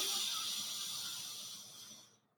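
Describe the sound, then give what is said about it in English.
A deep inhale through the left nostril, with the other nostril held closed, during a breathing exercise: a soft, airy hiss that holds steady and then gradually fades away over about two seconds. “You'll close your nostril and you'll just start to inhale through the left nostril, deep inhale, pushing the stomach out”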